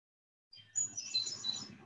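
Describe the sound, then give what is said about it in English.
Hermit thrush song on a spring day: faint, high whistled notes and quick chirps start after a brief silence and continue as a light, trilling phrase. “we'll hear this voice of the hermit thrush”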